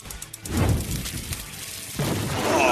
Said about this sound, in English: I don't think the goal is for the hot stove to actually blow up. No. We need it to blow up. But it's for like effect.